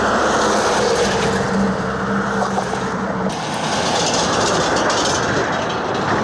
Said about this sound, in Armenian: Եթե կանգնեք Կոտայքի Աբովյան նոր հաճն քաղաքներն իրար կապող 640 մետրանոց կամուրջի վրա ու այդ պահին որևէ ծանր մեքենա անցնի, ցնցումներ կզգաք ու նման ձայներ կլսեք։